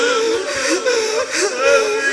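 Crying and sobbing at a mourning gathering for a martyrdom night: a loud, continuous wail with wavering, quivering pitch that swells and eases in a few long surges, without pause.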